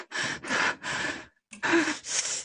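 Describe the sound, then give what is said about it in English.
Deep breathing, a series of about five breathy bursts separated by short pauses, clear and close with no other sounds. “Breathe in.”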